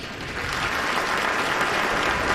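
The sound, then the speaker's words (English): An applause sound effect, a dense, even wash of many hands clapping that starts slightly softer, then holds loud and steady, with no voices. “I like the applause.”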